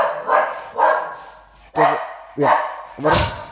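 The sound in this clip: A dog barks in a few sharp, loud bursts with a clear tonal bark; voices are also present alongside the barking.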